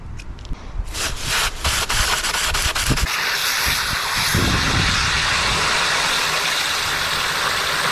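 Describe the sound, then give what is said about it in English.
Water spray rinsing a pool cartridge filter on a Cyclone filter cleaner after a pool treatment. A few sharp knocks and clatters open the sound, then a loud, steady rushing hiss of spray continues to the end. “I'm also going to go ahead and check on the filter and see if it needs another rinse, which it does after yesterday's treatment. So I'm going to go ahead and put this on my Cyclone, get that taken care of.”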